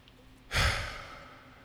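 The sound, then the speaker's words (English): A single deep breath let out as a long, slow sigh, starting abruptly and tapering gradually, faint and alone with no talk. “I've been doing that so much lately. Just a deep breath.”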